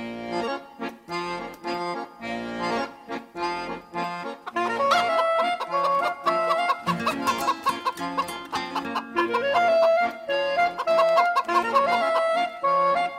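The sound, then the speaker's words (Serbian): Rooster crowing and hen clucking play over light melodic instrumental music in a children's song about a rooster and a hen, with repeated clucks and crows rising above the tune. “Petao i koka.”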